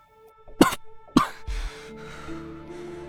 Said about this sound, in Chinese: 忍不住漏了口气，咳嗽起来。